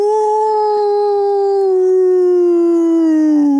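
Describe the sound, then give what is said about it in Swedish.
A human voice imitates a wolf howl: one long, loud, sustained tone that sinks slowly in pitch and is heard alone. “Kan jag få en smakprov på dina topp tre djurimitationer? Ja, men då tar jag, alltså varg är ju inte så svårt.”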